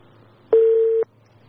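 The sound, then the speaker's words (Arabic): A single electronic telephone tone sounds as a phone call drops. The beep holds one steady pitch for about half a second, alone against a quiet background. “طيب معلش اتصل قطع معايا يا جماعة.”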